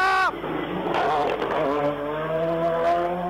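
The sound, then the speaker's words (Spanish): Race car engine on the Oscar Crespo circuit, a loud high whine that drops sharply in pitch as it passes. A steady engine tone follows and climbs gradually in pitch. “Los neumáticos, los frenos y la concentración son puestos a prueba en cada giro. Y aquí está una nueva máquina.”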